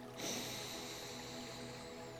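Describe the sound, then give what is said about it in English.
A single soft inhale through the nose during a breathwork exercise. It starts with a quick, sharp draw of air, then continues as a quiet, sustained airy hiss for about two seconds. “Take an inhale through the nose.”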